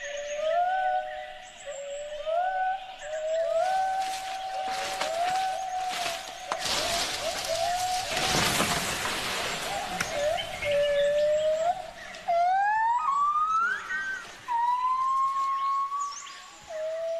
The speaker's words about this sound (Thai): มีเพียงไม่กี่เสียงเท่านั้นที่จะไพเราะไปกว่าเสียงของชนีที่อาศัยอยู่ในป่าของประเทศไทย